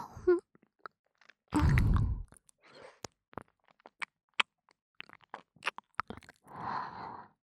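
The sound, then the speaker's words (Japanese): Hard candy being chewed and sucked in the mouth: many small sharp clicks and crunchy taps in an irregular pattern, with a long breathy exhale early on and another soft breathy sound at the end. “アメ、おいしいな。”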